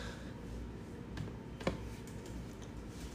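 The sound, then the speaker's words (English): A few sparse, faint keyboard key clicks sound over a steady hiss, with one slightly sharper tap in the middle. “All right. I'll type these down as we go.”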